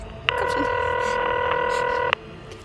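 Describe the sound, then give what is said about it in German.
A landline telephone tone as a number is dialed: one unbroken, buzzing electronic tone of about two seconds with abrupt start and stop, fairly loud, with no talk. “Mein Blick fiel auf das Telefon. Ich griff nach dem Hörer und wählte.”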